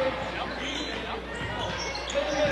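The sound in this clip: Basketball dribbling on a court during a game, the bounces blending into steady crowd noise rather than standing out as separate beats.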